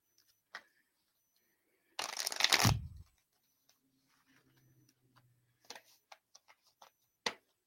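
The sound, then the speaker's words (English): Cards are shuffled and drawn for a reading: a loud riffling burst lasting about a second, followed by scattered soft clicks and taps of cards being handled, with a faint low hum in between. “Yeah, let's pull you a couple of cards.”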